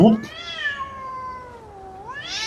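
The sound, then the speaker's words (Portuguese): Cats fighting, yowling in a long, drawn-out caterwaul whose pitch wavers and dips slowly, then rises sharply near the end, following a brief harsher cry at the start. “deixa eu separar uma briga de gato aqui”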